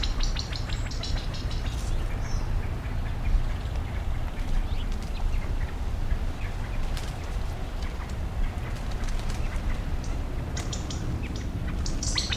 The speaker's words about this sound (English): There are a number of chicks, perhaps 10. Can't see the adults, though.